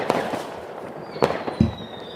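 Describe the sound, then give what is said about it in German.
Firecracker bangs from a football manager video game, a few sharp pops standing out over a low, steady background of game ambience. “Der raucht die Böller. Der zündet die Böller mit einem Glimmstängel.”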